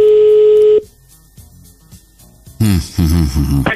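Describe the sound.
Telephone dialing to call a radio show listener: a steady tone stops, a quick series of short dialing beeps follows, and then voices talk over the line.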